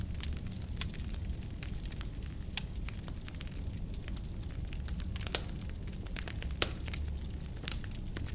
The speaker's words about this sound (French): Le feu est grand et large. Vous voyez les flammes tourbillonner et les lourdes bûches qui alimentent les flammes crépitées.